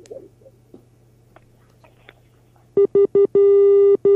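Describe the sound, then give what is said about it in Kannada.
A telephone line disconnection tone cuts off a phone-in call. After a quiet stretch of faint hiss, a loud mid-pitched electronic tone sounds as three short beeps and then a longer steady tone. “ದೂರವಾಣಿ ಸಂಪರ್ಕದಲ್ಲಿ ಕಡಿತ ಉಂಟಾಗಿದೆ.”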